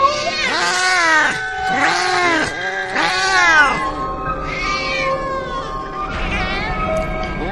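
Several cats meow and caterwaul in loud, drawn-out, wavering cries. The cries come in repeated bursts that overlap one another.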